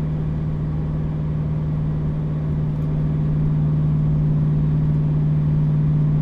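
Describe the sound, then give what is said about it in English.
Engine and road noise inside a car with the windows up, cruising in the right lane beside a guardrail at 2500 RPM in fifth gear. A loud, steady low drone with a constant hum runs throughout, and no one talks. “Let me throw the windows up to give you some perspective. That's windows up. Same kind of thing, guardrail on the right, right lane, 2500 RPMs in fifth gear.”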